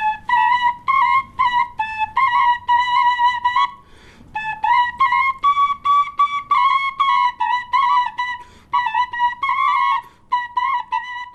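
Two shpelai flutes played simultaneously by one player give a bright, breathy melody of short repeated notes in steady phrases, with a brief pause near the middle. The playing is loud and heard alone, with no voices.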